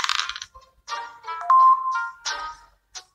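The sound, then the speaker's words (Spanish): A digital dice-roll effect from a mobile goose board game: a quick run of bright chimes and jingles, a brief steady electronic beep in the middle, then a few more ringing notes and a final short ding. “Ahora es tu turno de jugar. Pulsa la pantalla para tirar el dado.”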